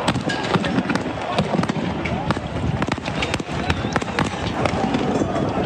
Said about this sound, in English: The sound of tear gas being thrown at supporters by police, who retaliated by throwing projectiles back.